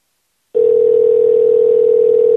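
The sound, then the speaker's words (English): A telephone line tone waits on an unanswered call, starting after a brief silence and holding one steady, unbroken mid-pitched note to the end. “Please answer your phone.”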